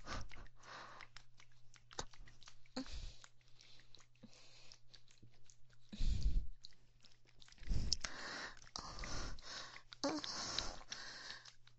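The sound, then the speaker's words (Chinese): Close-up eating sounds: wet chewing and biting with crunchy mouth noises repeating many times, mixed with occasional sniffs over a faint steady hum. “我的食物，怎么样？喜欢被我吃吗？喜不喜欢被我吃呢？”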